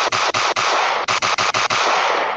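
A gunshot sound effect: a loud, harsh barrage of rapid shots blurring into dense crackling noise, broken only by many brief gaps, lasting a couple of seconds.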